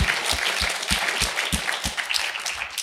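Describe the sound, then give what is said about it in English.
An audience applauds to welcome two authors onto the stage at a book talk, giving dense, sustained clapping at an even level throughout. “Please join me in welcoming Meg and Lauren as they discuss the courageous women at the centre of their stories.”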